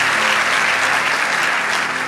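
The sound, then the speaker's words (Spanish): Applause from an audience at a worship gathering, loud, dense and continuous clapping that stays level for the whole stretch with no gaps. “Si ese aplauso es para lo agradecido que estamos, dale ese aplauso.”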